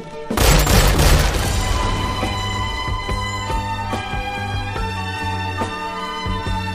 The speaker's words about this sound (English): there's that gun and he shoots her